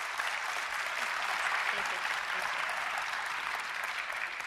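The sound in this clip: A church audience applauds to welcome a guest speaker, a steady wash of many hands clapping that holds at an even level for the whole stretch with no voices rising above it.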